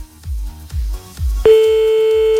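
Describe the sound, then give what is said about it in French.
A telephone line cut off mid-call gives a few dull low thuds, then a loud, steady electronic tone starts abruptly and holds to the end. “je sais pas ce qui s'est passé, on a été coupé, monsieur.”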